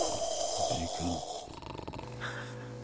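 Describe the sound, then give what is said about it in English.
Several people snoring, low rasping snorts repeating in slow pulses, fairly faint and without clear talk. “Oh, and they're all snoring. I can't take it.”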